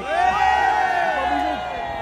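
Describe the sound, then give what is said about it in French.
Protesters, workers and hospital care staff shout loudly together in defense of a public hospital, a dense, sustained mass of overlapping raised voices holding steady throughout. “Écoutez ce que je vous demande, si ensemble, ouvriers, tout ce qu'on est, les salariés et nous, les soignants, eh bien, crions fort pour protéger l'hôpital public.”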